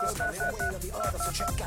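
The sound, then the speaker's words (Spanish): Telephone dialing tones as a number is keyed in, many short touch-tone beeps in a quick, regular rhythm with brief gaps between them. “Marcando ahora. Listo, la llamada.”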